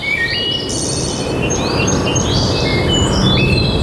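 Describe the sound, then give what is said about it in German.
Birdsong in a Bavarian forest: many overlapping high chirps, trills and whistles over a steady, fairly loud background hiss, with no talking. “Hier im Wald klingt Bayern anders. Hör hin.”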